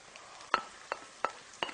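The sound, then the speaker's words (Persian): Split peas are stirred into a pan with sautéed onions and meat. Four soft, short scraping clicks of the spoon rise over a faint, steady hiss. “حالا نوبت اضافه کردن لپه است”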